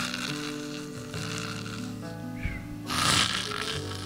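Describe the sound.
A man imitating his wife's snoring with his voice, a rough rasping snort that swells near the end, over steady sustained tones.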